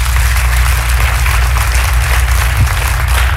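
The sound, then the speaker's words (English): An audience applauds at a Sunday evening teaching session, a loud, dense, steady clapping that holds evenly from start to finish. “I want you to give a big hand to our friends joining us by television as they become a part of our session tonight.”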